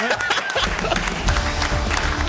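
A crowd applauds the Qatar team at the final whistle of a 1–1 World Cup football match against Switzerland, with dense, continuous clapping that holds steady throughout.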